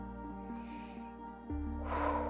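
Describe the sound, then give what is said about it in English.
Soft breathing during a calming breathing exercise: two faint breathy rushes of a deep breath blown out, heard over a steady low humming drone. “So we're gonna take some deep breaths to remove some of those negative thoughts.”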